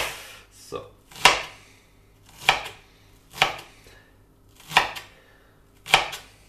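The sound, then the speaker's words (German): A knife chops food on a cutting board while preparing a vegan McRib, making a slow, irregular series of sharp, crisp strikes separated by pauses. “von oben einschneiden und dann quer dazu runterschnibbeln. Oh Gott, schnibbeln. Falsch. Schneiden.”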